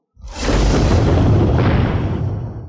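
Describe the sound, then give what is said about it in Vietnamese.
A deep explosive boom erupts suddenly and rolls on as one loud, rumbling roar for over two seconds, heavy and low before gradually thinning out. “Liên tục mấy tiếng nổ động trời vang lên”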